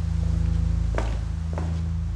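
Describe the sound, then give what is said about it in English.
Footsteps as someone walks through an open door at the base of a structure: two dull steps land about half a second apart over a steady low hum. “At the base of the structure, there's an open door, and I walk through it, but it doesn't take me very far.”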